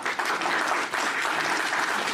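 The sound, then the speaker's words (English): Steady audience applause at a wrestling show honours the legendary wrestler Mr. Smooth Johnny Kidd. Many hands clap together in a dense, even wash at moderate loudness from start to end. “certainly worthy of your applause”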